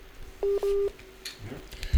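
Telephone tones sound as a phone call drops: two steady electronic beeps in quick succession, the second longer, followed by faint line noise and a short low thump at the end.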